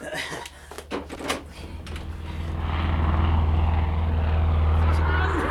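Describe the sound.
Propeller airplanes drone overhead while dropping supply parachutes. The low, steady hum swells louder partway through, with excited voices and a brief knock early on.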